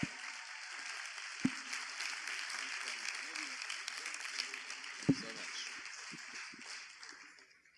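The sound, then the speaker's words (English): Audience applause greeting a guest speaker, a soft, steady patter of clapping with a couple of sharper claps standing out, gradually fading at the end. “Come on, put your hands together.”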